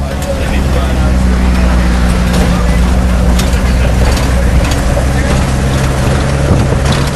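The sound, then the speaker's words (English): Loud, steady engine and road noise from inside a moving van owned by a base, one with a failing battery that has to be started with an electrical rod. The rumble is continuous and even, with voices talking under it. “We're driving in the amazing van that belongs to the base.”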